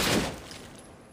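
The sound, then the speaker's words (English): Video game gunfire: a short, dense burst of shots hits hardest at the very start, then fades into a decaying rumble over about a second. “That whole shooting to try to lure guys over never works in this game.”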